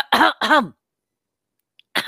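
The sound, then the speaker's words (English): Throat clearing demonstrated in a language lesson: two quick rasping, voiced scrapes close together, a pause of silence, then a third short scrape. “Clean your throat. Exactement. Se racler la gorge.”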